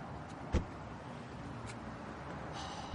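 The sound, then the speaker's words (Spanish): A man climbs out of a parked car on the open lot of a fairground: a single short thud, like a car door, stands out over a steady low hum. The whole scene is quiet. “Para en la explanada de un recinto ferial. Toro baja del coche.”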